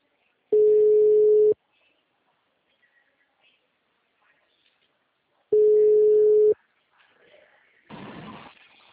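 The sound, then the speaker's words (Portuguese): A telephone ringback tone sounds while a call is placed, with two steady, even one-second tones separated by a long silence. A short burst of rustling noise follows near the end. “chamando.”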